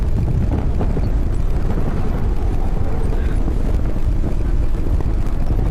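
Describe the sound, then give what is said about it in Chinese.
Blizzard wind roars on a mountain at minus 43 degrees. It is a loud, continuous, low rumbling roar that holds steady and never breaks. “反正非常恐怖，真是暴风雪那种。”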